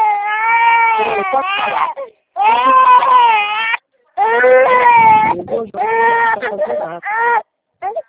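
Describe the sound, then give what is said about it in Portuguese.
An infant crying hard in repeated loud, wavering wails, each burst broken by brief pauses for breath. “Não, filho, não chora, não, não.”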